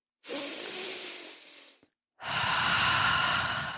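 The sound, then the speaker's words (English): A deep breath taken as a calming pause: two long, steady airy breath sounds, each about a second and a half, separated by a brief silence, fairly loud and alone. “Stop, pause, breathe.”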